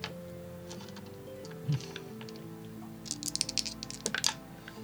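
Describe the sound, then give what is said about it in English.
Percentile dice clatter across a tabletop during a role-playing game: a soft bump, then a quick burst of many small clicks and rattles. A low, steady tonal background plays underneath. “I want you to roll, roll percentile dice.”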